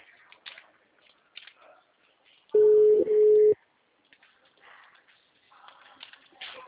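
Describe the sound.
A telephone ringback tone sounds while a call connects, one steady mid-pitched ring lasting about a second, clearly louder than the faint voices heard before and after it.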